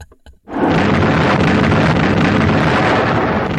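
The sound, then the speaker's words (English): A bomb explosion sound effect from a monster film: after a short quiet start, a sudden loud blast turns into a steady, dense roar that holds at full strength to the end. “I think you should put a little clip of it in, just so people can hear the same bomb going off three times in a row.”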